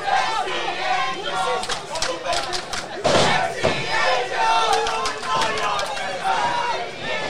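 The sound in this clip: A wrestling crowd at a no-rules match roars continuously and loudly, with shouts and yells rising out of the dense wall of noise and a sharp surge midway.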